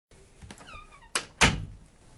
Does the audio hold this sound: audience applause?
no

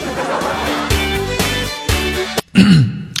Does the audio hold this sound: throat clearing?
yes

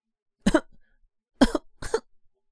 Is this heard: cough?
yes

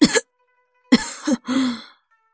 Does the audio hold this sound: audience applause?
no

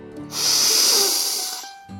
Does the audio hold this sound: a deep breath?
yes

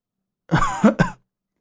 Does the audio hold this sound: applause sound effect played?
no

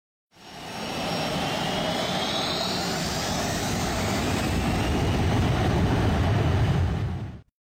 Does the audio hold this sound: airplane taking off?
yes

